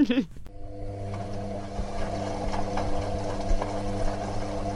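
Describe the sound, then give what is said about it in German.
A washing machine on its spin cycle gives a steady, humming drone with a constant tonal whir and faint rattles, holding an even level throughout after a brief burst at the very start. “Schleudergang.”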